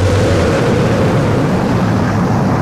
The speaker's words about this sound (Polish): we've gone for main engine start, we have main engine start.